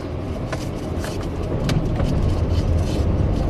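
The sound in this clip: A car pulling away from a stop sign onto a gravel road among rural Illinois cornfields at harvest time, with a steady low engine rumble and broad rough road noise that grows a little louder partway through, and no talking.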